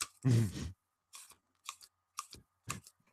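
Paper score pads are thumbed through one by one, giving about six dry papery flips. The first is loudest and longest, and the rest are shorter bursts spaced roughly half a second apart.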